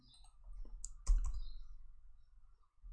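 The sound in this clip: A few sharp clicks of computer keyboard keys typing the stock ticker MSFT, a short cluster of taps in the middle over a low steady hum.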